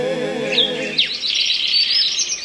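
A swallow chirping: a run of quick, high chirps and tweets that begins after a brief tonal sound and carries on to the end.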